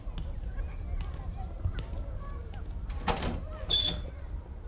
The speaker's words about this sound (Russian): И дверь прикрой.